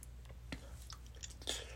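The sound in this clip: A child chewing food while eating a tasty meal: faint, soft crunches and mouth clicks in irregular rhythm, with no talk.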